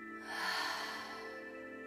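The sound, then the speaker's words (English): Slow, soft breath during a guided breathing exercise, a gentle airy rush that swells and then eases into a long, quiet, even flow, with no voice over it. “We'll do this 2 more times. Inhale and exhale.”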